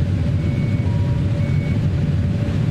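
A spaceship engine running on a computer, a dense, steady, low rumble that stays level and loud for the whole stretch, with no voices over it.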